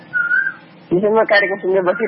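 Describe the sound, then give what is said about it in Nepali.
An Asian koel, a cuckoo, gives one clear whistled note that rises slightly in pitch, followed by a voice talking. “तपाईँको छेउमा त एकदम मजाले कोइली कराइरहेको मैले सुनिरहेको छु।”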